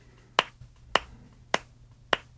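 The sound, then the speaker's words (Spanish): Four slow, evenly spaced hand claps of ironic applause, each sharp and crisp, sound alone against quiet with no voices. “Es para Roberto, y como podréis comprobar, es un aplauso con ironía”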